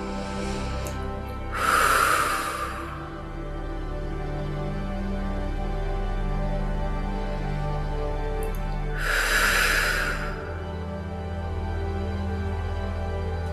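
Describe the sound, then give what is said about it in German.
Deep breathing in through the nose and out through a slightly opened mouth: two long, soft, airy breath sounds several seconds apart, heard over a quiet sustained tonal background. “Noch ein paar ganz tiefe Atemzüge durch die Nase ein und durch den leicht geöffneten Mund aus.”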